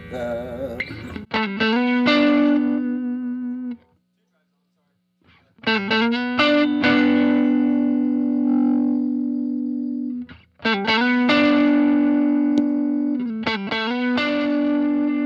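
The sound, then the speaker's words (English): An electric guitar played through overdrive pedals and a compressor rings out distorted strummed chords in three phrases, each held and evenly sustained, separated by short silences. “It's an automatic volume shift, so it's going to continuously squish those volume levels, make everything sound a little bit tighter and more consistent.”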